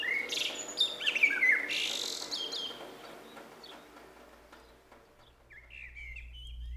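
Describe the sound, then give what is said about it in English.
Birdsong from a recording played on an iPod: bright chirps and trills cluster in the first two seconds, quieter calls follow, and a short run of high chirps returns near the end. “a recording of birdsong, because that seemed to me to be the only healthy noise that I could beam into myself.”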